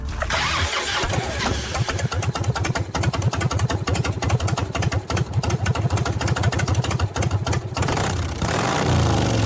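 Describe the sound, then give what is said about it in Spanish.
A Harley-Davidson motorcycle engine starting and idling, loud, with a low, deep, rapid thumping pulse that holds steady for several seconds before easing into a smoother, even tone near the end. “Un harlista muy cercano nos decía alguna vez que este sonido es mágico, terapéutico, y que cuando brota de un motor propio, equivale, bueno, a los latidos del corazón de un hijo.”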